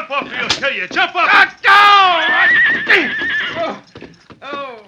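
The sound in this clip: A horse snorts and lets out a loud, shrill, drawn-out whinny as it kicks out at a man, with a few hoof thuds and sharp smacks around the cry.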